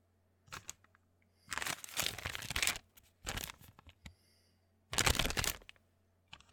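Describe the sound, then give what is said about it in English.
Paper envelope being torn open with some effort: loud bursts of tearing and crinkling paper in three main bouts, with small rustles and clicks between them. “Sorry, I have to fight with the envelope a little bit.”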